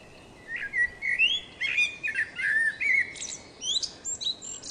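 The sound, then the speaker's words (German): A male Eurasian blackbird sings its loud, melodious territorial song, several fluting whistled phrases, each ending in a higher, thinner twitter, with brief pauses between and no other sounds. “Der melodiöse und laut vorgetragene Reviergesang der Männchen ist in Mitteleuropa hauptsächlich zwischen Anfang März und Ende Juli zu hören und kann bereits vor der Morgendämmerung beginnen.”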